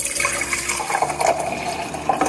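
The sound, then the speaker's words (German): Pouring of a mixed cocktail of Aperol, sparkling wine and orange juice over ice cubes: a continuous splashing, gurgling stream of liquid, steady and moderately loud with no talk. “Eiswürfel, Aperol, Sekt und Orangensaft. So schaut das Ganze nach dem Mixen aus. Mal abfüllen.”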